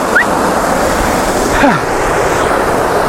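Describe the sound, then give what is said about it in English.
Rushing roar of a waterfall, a broad, even wash of water noise that holds steady throughout, with a short high chirp near the start and a brief tonal sound around the middle. “But it is a very cool waterfall.”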